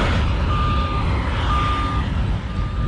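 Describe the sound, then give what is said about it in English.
Reversing beeps from a truck at a landfill: three evenly spaced, thin high-pitched tones over a constant loud, low rumble of heavy machinery and noise. No one speaks. “That sound you just heard was noises of the landfill.”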